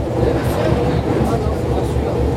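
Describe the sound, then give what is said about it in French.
River barge diesel engines rumble low and steady as the boat manoeuvres away from the quay, one engine pushing forward and one in reverse, with a voice talking over the drone. “Là, le bateau avance alors que j'ai un moteur en arrière, un moteur en avant. Et regarde l'arrière comme il va s'écarter. Regarde comme il se dégage du quai.”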